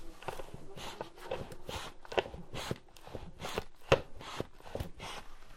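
Breathy puffs from a beekeeper's smoker being pumped to send smoke onto a feisty beehive, many quick whooshing bursts in a steady rhythm, fairly faint and with no talk.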